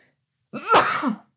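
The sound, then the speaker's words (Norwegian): A single sharp sneeze in silence: a short voiced lead-in builds quickly into a loud burst, then a breathy tail that fades within about half a second. “Det kom bare akutt et par nys her nå.”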